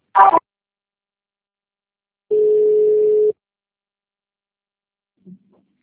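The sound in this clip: A single steady telephone tone, about a second long and held at one even pitch, sounds while a call is being transferred, set between short bursts of sound with silence around it.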